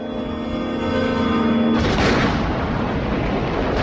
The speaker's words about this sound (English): A shed right in front of the control tower explodes in a massive ball of fire and black smoke.